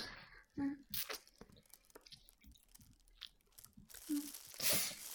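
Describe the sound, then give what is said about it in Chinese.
Chewing of roasted sweet potato, with a few soft, crunchy bites and squishy mouth sounds between bursts of conversation. “不错哎，哎呀，这地瓜真挺好吃的。”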